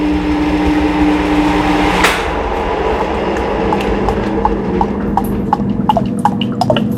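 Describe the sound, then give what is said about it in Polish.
Oil is poured through a funnel into a bottle, first as a steady flowing hiss, then as many small, separate drips. “O, trzeba ostrożnie, żeby nam się on nie porozlewał. O, mamy już nalany olej do butelki.”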